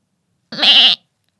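A goat bleating once, a loud, wavering, nasal cry lasting about half a second, standing alone against silence.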